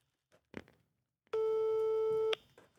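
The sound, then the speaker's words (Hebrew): A telephone call rings unanswered: one steady, flat electronic ringback tone lasting about a second, preceded by a few faint clicks and followed by quiet. “לא, הוא פשוט לא עונה. זאת שיחת הטלפון המפתיעה.”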